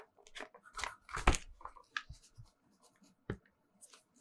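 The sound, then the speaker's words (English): Hand writing of answers onto paper during a trivia game: quiet scratchy pen strokes come in short irregular bursts, with a few louder scrapes among them and pauses in between. “I'm writing all four options down right now, just so I can like put it up.”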